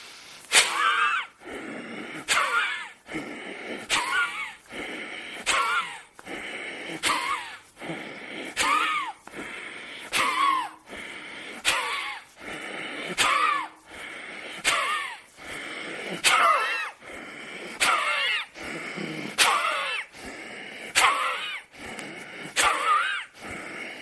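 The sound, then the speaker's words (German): Forceful rhythmic breathing of Bhastrika, the yogic bellows breathing exercise: many sharp breathy pumps in a steady, even pulse, each a short loud burst of air, with no talking. “Dann atme tief vollständig ein und beginne mit Bastrika.”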